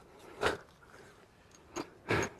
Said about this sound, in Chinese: 苹果，嚼嚼，哎，嚼嚼嚼嚼